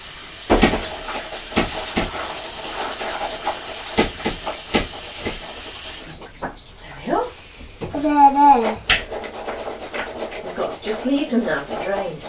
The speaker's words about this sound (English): Mummy's going to rinse these under the tap now.